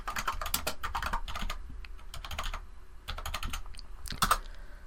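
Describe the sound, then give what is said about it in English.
Computer keyboard typing as a movie title is written down: quiet, rapid clusters of key clicks in uneven bursts with short pauses between them. “I'll write down another movie I've just remembered.”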